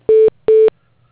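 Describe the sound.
Two identical short telephone tones sound during a call transfer, each about a fifth of a second long and at the same pitch, evenly spaced on an otherwise quiet line.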